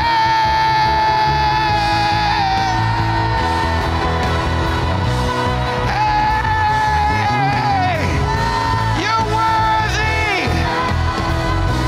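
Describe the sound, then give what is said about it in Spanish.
A worship audience shouting, yelling and whooping in praise, a loud, dense and continuous roar of many voices that stays at full strength throughout. “I want you to shout. I want you to kick your legs. 10 seconds. Quiero que brinquen, griten, avienten sus patadas.”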